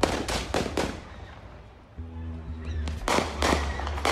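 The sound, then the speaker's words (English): Gunshots ring out in the parking lot of an auto service shop: a rapid string of sharp, loud bangs, then a pause, then a second quick burst of several shots, with a low steady hum underneath during the later part. “Moments later, shots ring out.”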